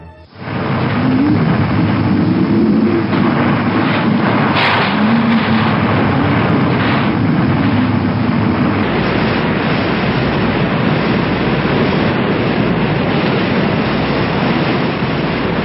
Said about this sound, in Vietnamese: mặt biển sôi trào dữ dội. Giữa cơn bão tố ầm ầm, tàu chia ba trên mặt biển thoát cao thoát thấp, bị hết cơn sóng này đến cơn sóng khác quăng quật